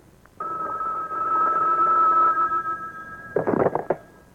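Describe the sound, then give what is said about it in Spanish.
A telephone rings with a steady, bright electronic tone held for about two seconds. It is followed by a brief cluster of louder rattling noise near the end. “Aló, yo contesto”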